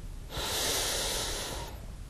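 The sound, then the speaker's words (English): A deep breath in during a guided breathing exercise: one long, steady airy inhalation that swells quickly, holds for over a second, then fades, heard alone. “Begin to deepen your breathing and listen to each inhalation and exhalation. Breathe in”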